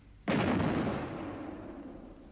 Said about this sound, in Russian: Шесть. Это салют. Совершенно верно. 6-дюймовая батарея салютует.